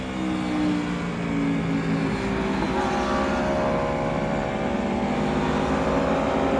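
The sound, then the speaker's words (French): An Aprilia motorcycle with a V4 engine revs on a race circuit, a loud, sustained, buzzing engine note with layered harmonic tones that climb gradually as it pulls along the busy track. “c'est génial le V4. Parce que oui, cet Aprilia, sa particularité, c'est son moteur V4.”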